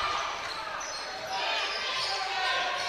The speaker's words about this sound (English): Branch is going to dribble down into the lane, go up for the layup.